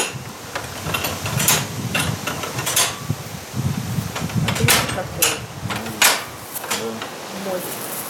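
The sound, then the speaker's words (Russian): An old but still working lock being operated, giving many sharp metallic clicks and clunks in an irregular rhythm over a low mechanical rattle. “Кто-то специализировался на скобяных изделиях, замки, скобы, там все такое. Замок до сих пор рабочий.”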